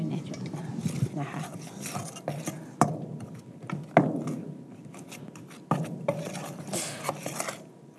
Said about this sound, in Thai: อันนี้เราร่อนมาแล้วนะครับ นะคะ แล้วก็สารส้มตะตุนะครับ แล้วก็ตัวการผู แล้วก็การผูแล้วก็หญ้าหวาน นะคะใช้ทัพพีผสม กดให้เข้ากัน